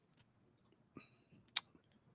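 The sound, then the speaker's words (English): A computer mouse gives one sharp, crisp click, with a couple of fainter ticks just before it, in otherwise near silence. “Let me click on this.”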